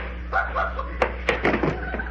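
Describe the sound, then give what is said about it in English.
A door that opens the wrong way being tried and rattled, giving a few sharp clicks and knocks from the handle and frame over a low steady hum. “Hey, what's wrong with this door here? It opens the other way.”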